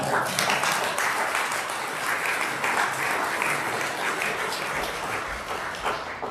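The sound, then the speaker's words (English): Congregation clapping during a Sunday church testimony service, a dense and steady wash of many hands that holds at an even loudness from start to finish. “Should we welcome Claire up as well? A lot of clapping today, right, so.”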